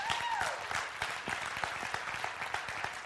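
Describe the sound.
An audience in church claps, with individual hand claps audible in a steady patter; a voice briefly rises over the applause at the start.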